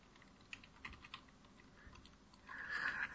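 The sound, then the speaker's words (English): Soft keystrokes on a computer keyboard: a few scattered, faint clicks, then a quicker, denser run of typing near the end. “I'm gonna type it into the chat.”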